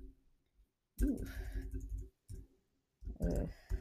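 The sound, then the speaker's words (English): Computer keyboard keys clatter as a search is typed, coming in a few quick bursts of faint, rapid clicking separated by short pauses. “Okay, so I have typed in Ice Barrier in the search bar.”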